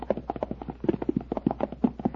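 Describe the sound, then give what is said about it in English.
Horses' hooves clip-clop as the animals are led on foot into their stalls, a quick, steady run of many light, hollow knocks with overlapping beats from more than one horse. “Now, dismount. Lead your horses into their respective stalls.”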